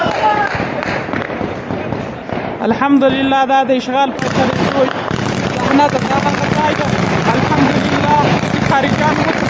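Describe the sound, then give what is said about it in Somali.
Gunfire shot into the air by celebrating fighters in Afghanistan crackles as dense, loud bursts, mixed with shouting voices raising chants throughout. “muuqaal muujinaya ciidamada mujaahidiinta oo rasaas cirka u ridaya islamarkaana takbiirsanaya”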